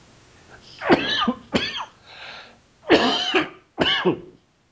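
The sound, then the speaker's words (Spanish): A person coughs four rough, loud bursts in a short fit, in two pairs with a pause between them, and no talk over the coughs. “Ya mejor no lo digo porque ya me dio tos otra vez.”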